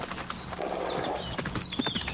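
Horse hooves clip-clop quickly as a kid rides fast and bent low down a street, a rapid, steady run of hoofbeats at moderate loudness throughout.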